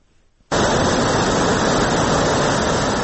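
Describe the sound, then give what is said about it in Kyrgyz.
A muddy mountain river roars down through a mudslide, a loud, steady, unbroken rush of water that cuts in abruptly after a brief near-silence and holds at full strength. “Тоо боорунда жалгыз аяк жол, төмөндө көчкүнү жиреп буркан шаркан түшүп агып жаткан майлы суу дарыясы.”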